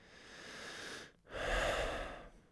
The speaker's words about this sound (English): I want to take a moment right now with you just to check in, to slow down and take a breath.